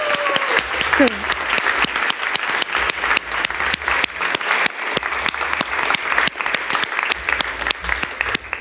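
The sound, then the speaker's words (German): Audience applause at a premiere, many hands clapping in a dense, even stream that lasts the whole clip, with a voice speaking over it. “ich würde jetzt einfach vorschlagen, er zieht sich so ein bisschen, dass wir uns jetzt alle nochmal gemeinschaftlich dazu hinreißen lassen, zu klatschen”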